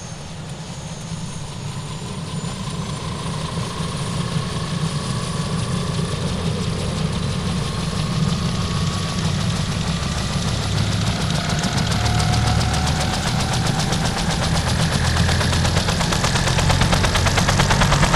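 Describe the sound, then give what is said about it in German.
A grounded helicopter's rotor spins with a loud, steady roar and a low, rapid throbbing, holding an even level throughout with a slight build. Engine whine sits above the beat, and no voices are heard. “Einen Moment. Eine kurze Kostprobe vom Hubschrauberpropeller.”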